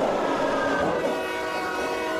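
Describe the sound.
A metro train runs with a loud, steady rumble and a sustained tonal whine on top, the noise holding constant throughout without pauses.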